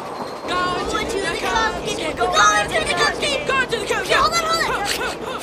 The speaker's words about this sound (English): Later, the three boys ride an elevated train.